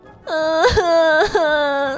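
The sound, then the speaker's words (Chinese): A girl cries in a high, sustained wail, broken twice by short gasping sobs before the wailing resumes, loud and with no other voices. “姐姐，你别哭了”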